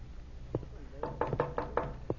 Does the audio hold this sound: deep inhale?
no